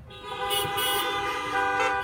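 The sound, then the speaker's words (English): Car horns toot at a drive-in church service, several overlapping honks sounding in short bursts over a steady horn tone, fairly loud and with no talking. “One person in your vehicle. Give a little toot.”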